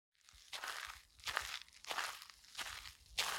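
Footsteps walking across a parking lot, five faint, crunchy steps at an unhurried, fairly even pace, with no voices.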